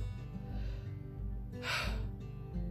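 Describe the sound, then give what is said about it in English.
A deep breath drawn in as one short, airy inhale that stands out briefly over a faint, low, steady background. “Deep breath.”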